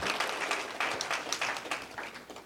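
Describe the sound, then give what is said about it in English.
An audience claps together in steady, moderately loud applause that ripples slightly in strength throughout. “That's worth applause.”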